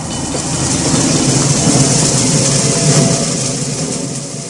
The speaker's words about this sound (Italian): arrivo in stazione e prendo posto in un vagone che deve condurmi direttamente a Savognino